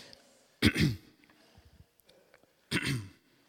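Throat clearing during a church service: two loud, rough bursts about two seconds apart, each roughly half a second long, with faint low rustling in the quiet between them.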